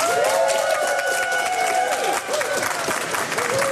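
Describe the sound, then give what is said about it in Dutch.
Busy crowd of visitors at the Google Cloud Next event in the Kromhouthal, Amsterdam, forming a dense, continuous hubbub of overlapping voices and movement. “Het is hier gezellig druk. Er 1200 bezoekers bezoeken dit evenement.”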